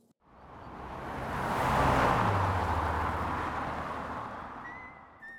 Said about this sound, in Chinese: 跑车疾驶过高尔夫球场